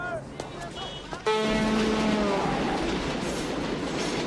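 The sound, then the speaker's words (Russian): A metro train rides along the rails. After a quieter stretch with a few sharp clicks, a loud, steady rumble sets in abruptly, carrying whining tones and continuing to the end. “Девушка и слепой мужчина, Уолли, едут в метро.”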